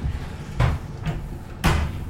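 An oven door closes over meat fitted with a thermometer probe and its cable, giving three dull clunks. The middle clunk is softer and the last is loudest, with no talk.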